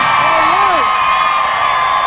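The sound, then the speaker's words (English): A concert crowd cheers loudly as Governor Ron DeSantis comes on stage, a continuous roar of voices with a clear rising-and-falling whoop near the start. “Oh, listen to those cheers.”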